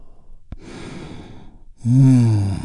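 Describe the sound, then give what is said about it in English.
A deep breath drawn in and then released: a soft, airy inhale, then a louder, voiced sighing exhale that slowly fades. “taking a big, deep healing breath with me. Here we go. And release.”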